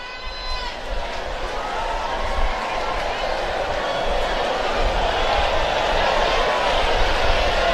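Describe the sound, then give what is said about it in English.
Baseball stadium crowd doing the wave: a dense, steady roar of many voices that swells slightly louder in its second half. “They're starting the wave here at Busch Stadium. That's that noise you hear.”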